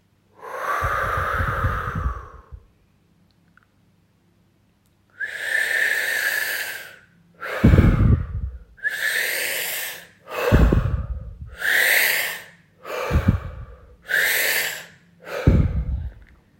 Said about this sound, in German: Atme tief ein und aus.